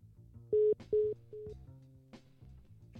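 After a caller drops off the line, a telephone line signal sounds as three short, steady mid-pitched beeps. The first two are loud and the third is softer, set against a faint background hum.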